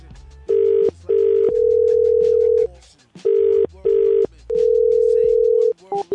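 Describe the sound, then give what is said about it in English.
An odd telephone ring blends American and British cadences: two short steady tones followed by one long tone, a pattern that plays twice. The tones are loud and mid-pitched, and a brief click comes at the end. “your numbers are even ringing weird. That was a half American, half British ring.”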